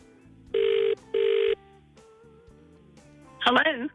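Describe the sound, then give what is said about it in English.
A telephone ringing tone plays as a call is placed on air: two steady, fairly loud ring bursts in quick succession, then a quiet pause before a voice briefly answers at the end. “Time to give him a call. Dial him up.”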